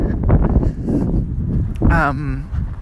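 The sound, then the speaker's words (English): Wind buffets the microphone outdoors, a continuous low rumbling roar under ongoing talk. “Oh, the wind.”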